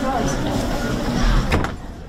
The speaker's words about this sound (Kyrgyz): эшигин тарс жапты